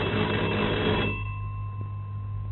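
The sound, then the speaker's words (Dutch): An electric doorbell rings in a dense, buzzing ring that lasts about a second before stopping, leaving a lingering tone that slowly fades. “Er wordt gebeld.”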